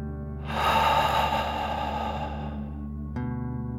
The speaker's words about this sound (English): Deep breath in and out.